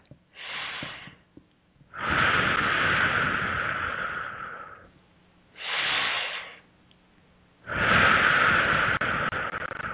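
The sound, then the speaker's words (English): Deep breaths taken during a guided meditation: long, airy rushes of air, each lasting a few seconds and separated by short quiet gaps, with a softer breath at the start. “Let's take three nice deep breaths here.”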